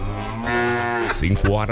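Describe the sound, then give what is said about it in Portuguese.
A cow moos in one long, loud, low bellow lasting nearly two seconds. The tone turns rougher and wavers toward the end. “Hora do mugido especial pra aquela pessoa especial.”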